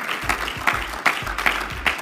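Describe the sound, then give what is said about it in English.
A church audience clapping hands together in a steady, regular rhythm, with sharp unified beats recurring evenly over a bed of looser scattered claps and a low rumble beneath. “Come on, clap your hands to God.”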